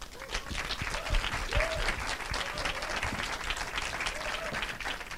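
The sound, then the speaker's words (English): Clapping welcomes two filmmakers to the stage at a film Q&A, a steady, fairly even round of applause lasting several seconds. “Can you put your hands together and welcome to the stage Kleber, Mendonça, Filho and Juliano Dornelles.”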